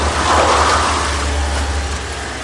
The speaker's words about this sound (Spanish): Fuera, de un coche baja el subcomisario Duane con ademán decidido y mostrando su placa en alto.